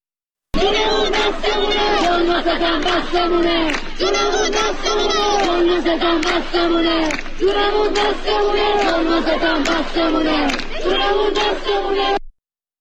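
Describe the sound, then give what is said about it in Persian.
Students chant in unison at a rally at the University of Science and Culture in Tehran. The crowd shouts loud, rhythmic, repeated phrases that carry on almost without a break. “دانشجویان دانشگاه علم و فرهنگ در تهران هم روز سه‌شنبه گرد همایی پرشوری ترتیب دادن. حیف صدای اونها رو نشنویم. اگه ممکنه صداش پخش بشه.”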